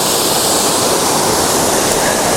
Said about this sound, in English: So in this area, it's a pretty typical upper course of the river. The falls are nice, pretty monstrous